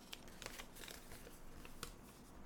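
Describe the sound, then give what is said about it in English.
A piece of paper drawn from a bag being unwrapped: faint, continuous crinkling and rustling with a few sharper crackles scattered through. “He's picked a piece. Unwrapping it.”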